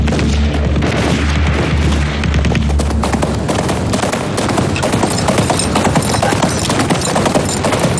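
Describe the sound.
Horse hooves clip-clop during a ride by soldiers with a saddled mount, a dense, rapid, continuous patter of hoofbeats that stays loud throughout.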